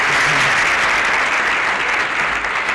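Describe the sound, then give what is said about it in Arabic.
Studio audience applause: dense, steady clapping that stays loud and even from start to finish. “لا ده لازم الواحد يسقف له.”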